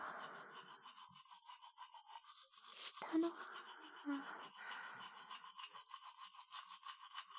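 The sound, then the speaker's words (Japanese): Teeth being brushed with a toothbrush, front and upper teeth scrubbed in quick, steady back-and-forth strokes that form a faint, continuous rhythmic rasp. “歯の裏もしっかり磨いていきますと。”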